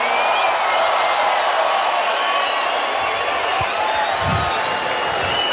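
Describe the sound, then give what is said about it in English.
A festival crowd at Tomorrowland roars and cheers for DJ John Summit, with scattered whoops and claps in a loud, unbroken wash of noise that holds steady throughout. “So everybody put your hands up in the air and make some noise for John Summit.”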